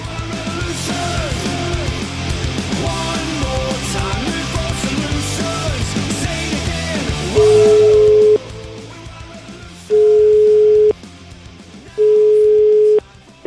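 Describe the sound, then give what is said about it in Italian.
Telephone ringback tone while calling an ice cream shop: three long, steady, loud tones separated by short pauses, following a dense, noisy stretch of other sound. “Chiamiamo la gelateria, vai, la gelateria dove è andato Salvini, vai.”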